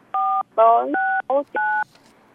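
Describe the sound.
Telephone keypad tones sound as a number is dialed: three short, steady dual-pitched beeps, each clear and fairly loud, alternating with brief snatches of talk.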